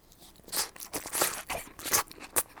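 Chewing on grilled white pork offal with crisp onions gives a quick series of sharp, crunchy, crackling bites. They are fairly quiet and irregular in rhythm, with no talk over them.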